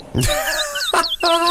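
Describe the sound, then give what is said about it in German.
Birds riding a train in Australia call loudly in harsh, harmonic squawks, with a few strident cries whose pitch bends and glides across a brief stretch. “Zwei Vögel fahren in Australien täglich mit dem Zug zu ihrer Futterstelle.”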